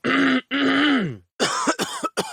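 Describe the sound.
A man's voice imitates a persistent, stubborn cough: two drawn-out, voiced, rasping hacks followed by several quicker, choppy coughing bursts, loud and close.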